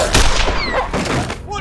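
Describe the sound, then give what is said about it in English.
A single loud gunshot from a Colt revolver, fired at a mortally wounded dog: a sharp, heavy crack near the start, followed by a decaying tail and weaker sounds. “had not holstered his Colt. The hapless dog was mortally wounded and would soon bleed to death.”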